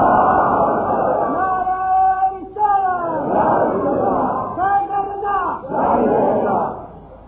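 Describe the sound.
Many voices shout the takbir response in unison during a religious sermon, a few loud, swelling chanted phrases separated by brief dips.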